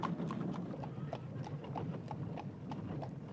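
Horses' hooves clip-clop as a carriage departs, with many quick, steady hoof strikes in an even rhythm over a continuous low rumble.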